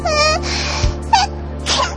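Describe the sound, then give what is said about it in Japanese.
A cute sneeze from someone with an itchy nose: a breathy voiced lead-in and a sharp burst, then a few short, higher vocal bits that trail off. “猫姉さんってくしゃみまで可愛いな。”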